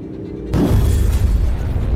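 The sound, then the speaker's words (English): An explosion erupts from a creature during combat in a fantasy role-playing game scene. A sudden loud boom cuts in after a brief quiet, then a heavy rumbling roar sustains to the end, with no voices. “There is an explosion,”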